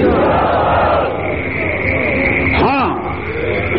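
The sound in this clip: A crowd roars back in unison in response to a Nara-e-Takbir slogan at a religious speech, a loud, sustained mass of shouting voices lasting nearly four seconds.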